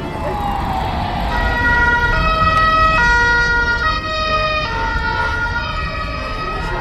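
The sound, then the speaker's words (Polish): An emergency vehicle siren, whether ambulance, fire engine or police, sounds loud and sustained. Its harmonically rich tones switch between pitches in a steady repeating pattern. “Ja nie potrafię rozpoznać, czy karetka jedzie, czy straż, czy policja. A mają różne sygnały.”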